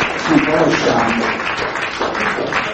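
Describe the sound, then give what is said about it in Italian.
Loud, sustained applause fills a political association meeting in Naples as a new member is introduced, a dense, even roar of many clapping hands with a brief voice over the start. “Adesso c'è l'avvocato Marco Esposito, che nella giornata di oggi si è iscritto all'Associazione Radicale della Grande Napoli, quindi vi farò un grande applauso.”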